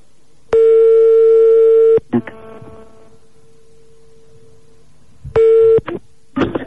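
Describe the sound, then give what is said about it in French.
A telephone call is dialed: a loud, steady tone burst, then a few sharp clicks and a faint lingering tone, followed by a shorter tone burst and some brief rustling clicks. “On appelle donc un marabout pour voir si David a du talent.”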